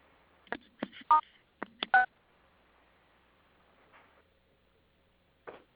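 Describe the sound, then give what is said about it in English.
Telephone keypad tones as star and six are pressed to unmute on a conference call: two quick clusters of short, bright beeps, then a faint lone tone a few seconds later against near silence. “if you've muted yourself with *6, you can just press *6 again to unmute yourself”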